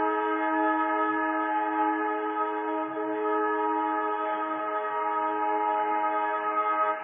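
A passing train's horn sounds continuously, a loud, steady, chord-like blare held unbroken for several seconds with no voices.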